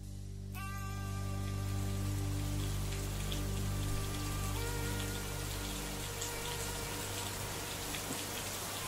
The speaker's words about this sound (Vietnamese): Lúc ngẩng mặt lên, trời đã bắt đầu đổ mưa.